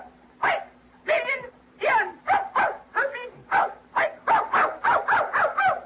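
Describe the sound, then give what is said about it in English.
A dog barks many times in quick succession, each bark short and sharp, with a steady low hum beneath the barking. “That's a dog. It's canine.”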